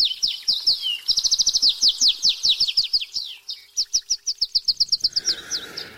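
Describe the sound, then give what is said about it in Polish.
Pet canaries singing: rapid, high, bright trills and chirps, loud and without pause, shifting into a long run of evenly spaced repeated notes near the end. “A to, co słyszeliśmy, czyli śpiew kanarków, to zasługa pana Tomasza Grodowczyka”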